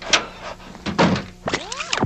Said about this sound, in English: She's out the door. The door closes.